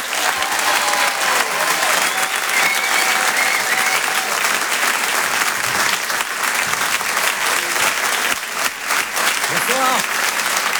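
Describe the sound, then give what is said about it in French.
Applause and an ovation from a comedy club audience, dense, loud clapping that holds steady for the whole stretch without a break. “Je demande une ovation s'il vous plaît pour Céline.”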